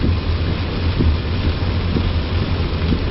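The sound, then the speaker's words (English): Rain falls steadily as an even, continuous hiss with a low rumbling undertone. The sound stays at a constant level throughout, and no voices are heard. “you can hear the rain coming down.”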